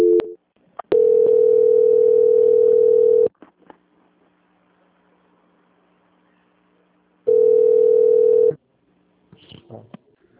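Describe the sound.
Telephone call transfer tones on the line: a brief beep, then two long, steady mid-pitched tones separated by a quiet gap, with a faint voice at the very end.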